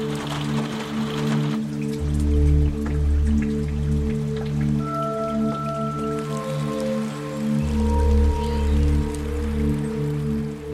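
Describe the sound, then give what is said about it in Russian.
Rain drums on a house roof in a steady, dense patter that continues without a break and stays fairly loud for the whole stretch. “крыше дома стучит дождь.”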